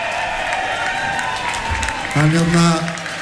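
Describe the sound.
Applause from a concert audience, a dense, steady patter of clapping that lasts the whole clip, with a voice sounding over it toward the end.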